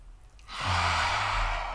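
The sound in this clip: A slow, deep breath taken like a sigh: loud and airy, swelling in at about half a second and held steady to the end, with no talk.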